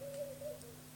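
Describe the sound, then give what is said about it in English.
Birdsong: one soft, hooting whistled note, fairly low in pitch, sounds faintly over a steady low hum. “The birds are singing. We just know the birds are singing. There is birdsong singing.”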